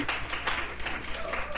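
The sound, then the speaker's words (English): An audience at a Mother's Day gathering claps for guests, giving a dense, fairly quiet patter of many hands. “let's clap for them.”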